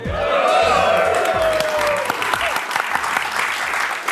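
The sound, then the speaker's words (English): Cinema audience at a live recording of a film premiere at the Barbican shouts a greeting together, then breaks into a dense, steady burst of clapping and cheering. “Can I get a hello from the audience?”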